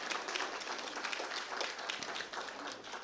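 Applause from an audience welcoming a newly married couple: a dense, steady patter of many hands clapping throughout, with no talk over it.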